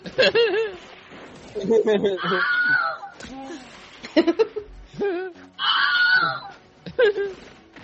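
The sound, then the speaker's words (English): The same stock scream from TV shows and movies repeated over and over: several loud, wavering high vocal bursts separated by short gaps, with some sounding almost like laughter. “Same scream over and over again.”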